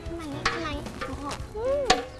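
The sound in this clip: A small utensil stirs a pandan-scented mixture in a pan with soft, steady scraping and swirling. Voices rise and fall in the background.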